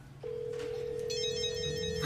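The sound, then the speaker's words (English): A mobile phone ringtone rings inside a drawer, a faint, sustained steady tone that is joined after about a second by a higher, warbling melodic pattern. “Principal Vogler's phone is in the drawer, too?”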